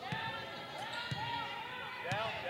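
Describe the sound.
A basketball is dribbled during a women's game. Three firm bounces land at an even pace about a second apart, under ongoing commentary.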